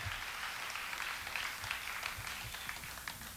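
Applause from a small studio audience: a steady, faint patter of many hands clapping together, without voices.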